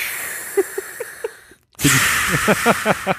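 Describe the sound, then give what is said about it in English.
A voice imitates heavy mechanical respirator breathing, drawing long hissing, rasping breaths: one breath, a short silent pause, then a louder second breath. “So the problem with breathing like Darth Vader is it's at all times.”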